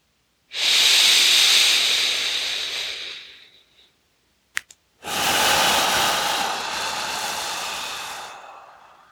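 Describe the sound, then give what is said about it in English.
Forceful exhales during a breathing exercise, pulling the belly in: two long, loud rushes of breathy air, each lasting several seconds, with a brief puff in the short pause between them. “Strong exhale, powerful exhale, pulling the belly in.”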